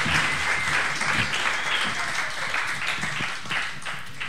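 Applause from a live audience at Club Garibaldi, a dense and steady wash of many hands clapping that holds at an even loudness for the whole stretch.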